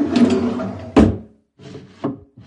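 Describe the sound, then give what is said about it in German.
A drawer slides open in a wooden chest of drawers, giving a long dry scrape of wood rubbing on wood, then shorter rubs and a couple of sharp knocks, with brief pauses between them. “Und sie geht zur Kommode und öffnet eine Schublade.”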